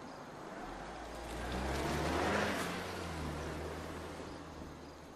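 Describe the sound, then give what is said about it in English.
A car engine hums as the vehicle reverses out of a driveway and drives away. The sound swells to a peak partway through, then gradually eases off. “He looks up briefly, then watches her reverse out of the drive and leave.”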